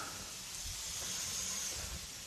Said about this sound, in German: die Schüssel, in denen ich eben die Stiele transportiert habe, spüle ich nochmal kurz aus